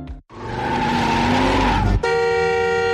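A car horn blares at a bad driver in one long, steady tone. Before it come about two seconds of loud car noise with a whining, squeal-like tone.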